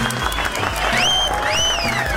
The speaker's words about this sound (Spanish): Aplausos. La verdad sí que se merecen aplausos.